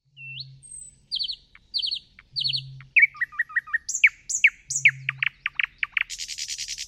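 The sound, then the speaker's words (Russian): Common nightingale song: rapid, varied phrases of clear whistles, chirps and fast trills, each phrase set apart by short pauses. The loud, bright song ends in a buzzy rattle. “Смотрите, вот давайте послушаем песню соловья. Несколько вариантов. Допустим, один вариант.”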